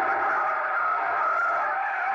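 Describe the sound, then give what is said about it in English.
A car braking hard during a chase to stop in front of a house gives a continuous, steady high tire screech that lasts throughout without pause. “Jam on the brakes.”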